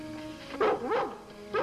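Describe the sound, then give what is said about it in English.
A dog barks at night in short, high, yelping bursts. Two come close together, then another after a brief pause, over a low steady hum. “But the dog would not come if someone did not send it.”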